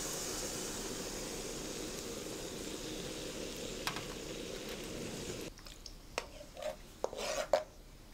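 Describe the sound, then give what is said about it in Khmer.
Hot coconut milk with salt and sugar is poured into a pot and stirred: a soft, steady rushing hiss for about five seconds, then faint scraping strokes of stirring. “នៅពេលនេះខ្ទិះក្ដៅគឺខ្ញុំចាប់ផ្ដើមចាក់ខ្ទិះចូលកូរតែម្ដង”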